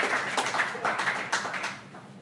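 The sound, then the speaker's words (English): A modest round of applause for the panelists at an evening panel discussion, scattered hand claps of moderate loudness that thin out and fade toward the end. “Those are our distinguished panelists. I think a round of applause is in order.”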